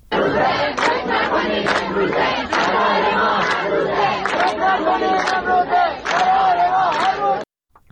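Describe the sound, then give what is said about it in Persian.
Students at Razi University in Kermanshah chant protest slogans together, a dense crowd shouting in strong rhythmic bursts with brief gaps, before the chanting cuts off abruptly. “یکی از شعارهای دانشجویان در دانشگاه رازی کرمانشاه را می‌شنوید.”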